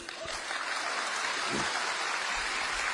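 Applause from an audience at a stage performance, meant to cover a singer's cough: a continuous, fairly faint patter of many hands clapping that holds at an even level throughout.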